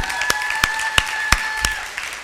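An audience applauding to welcome a guest, a dense wash of clapping with sharper claps landing on a steady, regular beat.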